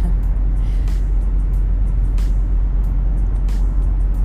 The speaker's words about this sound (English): Especially when I'm driving long distances, which I am currently.